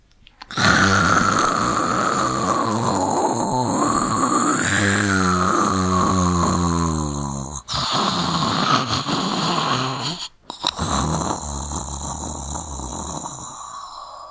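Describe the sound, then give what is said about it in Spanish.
Loud, drawn-out snoring from a deeply exhausted woman slumped in a chair, a rough rattling drone that carries on steadily, broken by a couple of short gaps and sharp catches. “en un ronquido, ella, profundamente cansada, había dejado caer su cabeza en el respaldo de la silla.”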